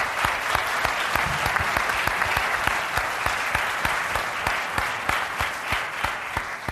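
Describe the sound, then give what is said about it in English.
Audience applause at a Climate One event, with distinct individual claps in a lively, busy rhythm that holds steady and then eases slightly toward the end. “Let's give them another big hand here.”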